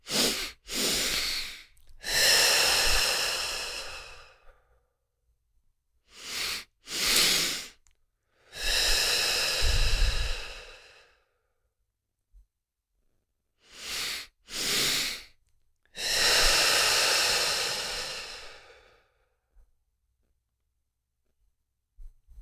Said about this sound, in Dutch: We gaan zo meteen twee keer inademen door de neus. De tweede inademing ietsjes langer, dus ik zal hem voordoen. En dan blaas je uit door je mond.